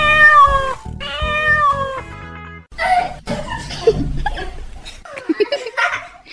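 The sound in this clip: A cat meowing, a few drawn-out tonal meows with clear harmonics at the start, followed by chuckles and laughter.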